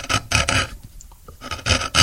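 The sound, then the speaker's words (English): Crisp rasping strokes of a gouge carving a piece out of violin tonewood, a rhythmic series of scraping bursts that pauses midway, then resumes. “And then you listen to the sound as you gouge it, you get it's got a crispness to it.”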